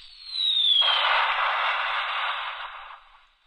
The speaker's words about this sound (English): There goes the bomb dropping on the real estate market.